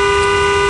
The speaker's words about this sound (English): Now this is what that same horn sounds like when you're on a bike.